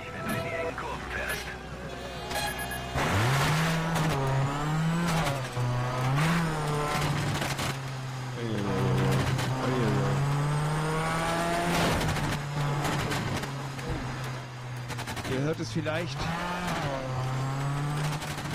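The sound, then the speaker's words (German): Rally car engine from a rally racing video game demo on Xbox 360, driven over a mountain: a droning engine note that rises and dips as it revs, brief tire squeals, and people talking over it. “Ihr hört es vielleicht, wir versuchen hier gerade mal heil über den Berg zu kommen. Mit der Demo-Version von Colin McRae Dirt für die Xbox 360”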